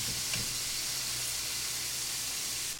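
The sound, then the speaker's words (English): Steady sizzling hiss as fried sausages are moved from a frying pan into a sauce on low heat. A brief clatter comes early, then an even, loud sizzle runs on until it cuts off near the end. “Now, I put the sausage into the sauce.”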